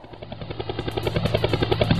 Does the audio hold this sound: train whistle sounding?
no